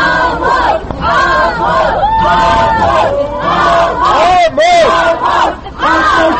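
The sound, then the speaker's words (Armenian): Angry crowd holding posters shouts at the accused in a courthouse courtyard, with many loud overlapping voices yelling in rising and falling cries that continue almost without pause. “Դատարանի բակում հավաքված ամբոխը մատիվ պաստառներով կոչերանում դատապարտել Լևոն Ավակյանին եւ դիմավորեց մեղադրյալին բղավոցներով։”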